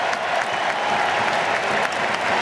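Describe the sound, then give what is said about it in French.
Crowd ovation at a football match as a substituted player leaves the pitch: continuous, dense applause and crowd noise, steady and loud throughout without any break. “Ah, belle ovation.”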